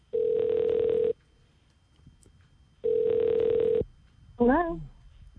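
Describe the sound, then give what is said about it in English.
Two long, steady ringback tones from a phone call placed out of a radio studio, each lasting about a second with a pause between, followed by a brief voice answering at the end. “let's dial this number.”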